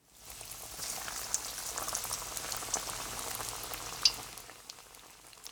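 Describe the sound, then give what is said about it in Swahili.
Potato chips fry in hot oil, a few at a time: a faint, steady bubbling sizzle with a few small pops rising out of it. “Sasa tukaange chopsi. Zikaange kadhaa kwa wakati mmoja, lakini usizikaange zote kwa pamoja, sababu hilo litapunguza nyuzi joto ya mafuta.”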